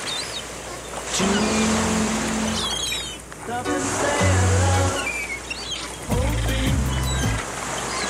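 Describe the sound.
Sea waves roar in a steady, broad hiss of surf, with short snippets of sung melody buried in the noise, surfacing briefly and fading back under the waves.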